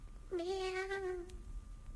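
A cat gives a single drawn-out meow lasting about a second, holding a fairly level, clear pitch before trailing off. It is moderately loud over a faint background hum, with no talking.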